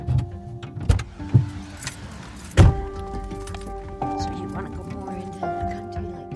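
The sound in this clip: A van drives to the airport with a low, steady engine hum. A few heavy thuds and clunks sound early on, and faint voices murmur underneath.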